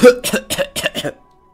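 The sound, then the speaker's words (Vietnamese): A person coughs dry and without stopping: five quick, harsh coughs in a row, then silence. “Hạ Hầu Long Thành cũng ho khan không dứt.”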